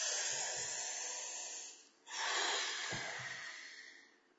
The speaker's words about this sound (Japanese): じゃあ深呼吸一回していきますよ。